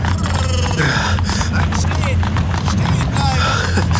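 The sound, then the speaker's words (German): A horse-drawn carriage draws up with a dense, loud clatter of hooves and a rough rumble of wheels, broken by snorting and grunting breaths. “Die Kutsche kommt zum Stehen.”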